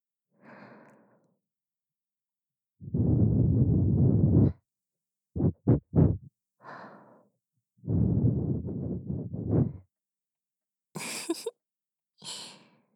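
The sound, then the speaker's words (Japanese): Soft blowing into an ear: a series of gentle breathy blows separated by silence, some long and steady, others short quick puffs, with no talking. “こうしてお耳ふうふうされるの。”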